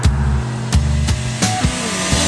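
A car speeding along a toll road gives a steady low engine and road drone, broken by a few sharp, evenly spaced thumps as the tires cross the road surface.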